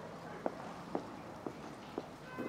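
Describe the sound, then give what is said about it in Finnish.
Faint footsteps of someone walking from Pasila police station to Tripla shopping centre, five evenly spaced soft steps about half a second apart over a steady background rumble. “Ritva Elomaan haastattelun jälkeen kävelen Pasilan poliisitalolta kauppakeskustriplaan.”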